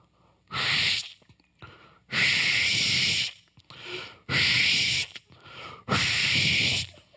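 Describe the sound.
A voice imitates sneezing with four loud, hissing sneeze-like bursts separated by short pauses and a quieter breathy snort, performed as an exaggerated vocal mimicry.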